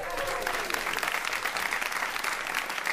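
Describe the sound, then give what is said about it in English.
Studio audience applause, a dense, steady wash of clapping hands with a few cheers, sustained and loud throughout. “Rebecca De Unamuno, and especially big round of applause for Gene Kitson!”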